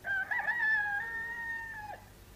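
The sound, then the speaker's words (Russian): A single rooster crow before dawn: one long, loud call that starts with a quick flourish, holds a steady bright tone, then drops sharply in pitch at the end, with no other sounds around it. “Сюда лишь идет петухов эстафета. Вращение земли сопровождается криком ликующих птиц”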